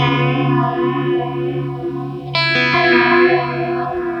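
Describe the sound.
Electric guitar run through delay and a modulation effect plays sustained, shimmering chords that waver and swell. A sharp, brighter strum cuts in midway, then rings out in a thick, echoing wash.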